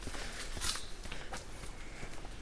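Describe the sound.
Footsteps of a person walking a short way over to a signpost along a path, a few soft, evenly spaced steps over steady outdoor background noise.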